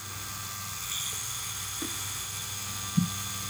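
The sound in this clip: Steady electric buzz of a cordless, battery-powered tattoo machine running, a constant motor hum throughout with a couple of faint ticks, no voices.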